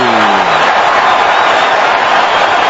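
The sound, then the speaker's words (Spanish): A stadium crowd in Atlanta cheers for South Africa at a football match against the Czech side after a penalty is awarded, a loud, dense and continuous roar of many voices with no break. “Y la gente está con Sudáfrica, escuchen al público de Atlanta.”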